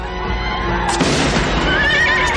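A horse whinnies during a battle, while being ridden through musket fire. High, wavering neighing calls rise over dense, continuous noise in the second half.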